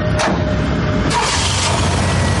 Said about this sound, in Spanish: El camión 6266 sale del garaje y se acerca a la puerta exterior.